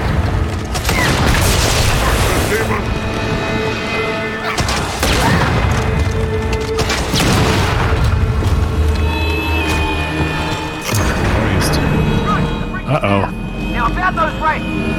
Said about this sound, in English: Let me go shoot some rockets at these.